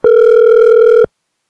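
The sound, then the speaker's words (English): A telephone rings once: a single loud, steady electronic tone lasting about a second that stops abruptly into silence, with no talk. “I love the part of the show where the phone rings.”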